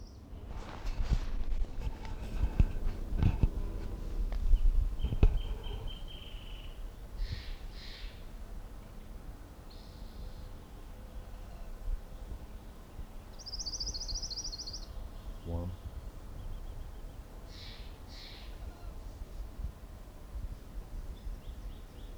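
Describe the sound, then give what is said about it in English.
Orange-crowned warbler song: a few brief, high, buzzy trills come faintly and spaced apart over a steady background hiss, with no voices. “Orange Crowned Warbler number one.”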